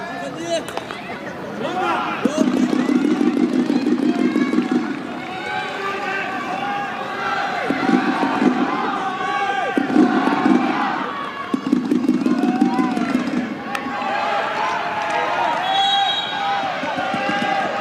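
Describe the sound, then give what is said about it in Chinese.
Spectators, including a men's team in the stands, cheer on a women's team match with rhythmic bursts of chanting and crowd noise, under continuous talk. “今天我们看到应该是男队啊，也在看台上呢给女队进行着加油助威啊。”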